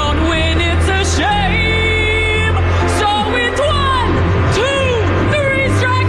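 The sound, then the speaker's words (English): A crowd boos and jeers at a contestant, a loud, unbroken mass of voices with scattered whoops and yells riding over a low, sustained drone. “Yes, she deserved to get booed.”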